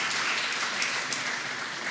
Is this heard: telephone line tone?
no